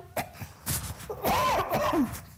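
A person coughing in a few short, harsh bursts, followed by a longer voiced, strained throat sound.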